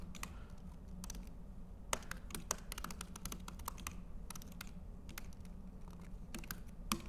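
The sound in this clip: Typing on a computer keyboard while writing JavaScript code: many quick, light key clicks in an uneven rhythm, soft and steady throughout, with no voices.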